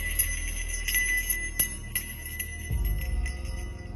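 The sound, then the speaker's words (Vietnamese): A small hand bell is shaken during an exorcism ritual, giving many bright, tinkling rings in an uneven rhythm over a low, steady drone. “Sau đó miệng của thầy cứ dì dầm cái gì, tay thầy lắc chuông.”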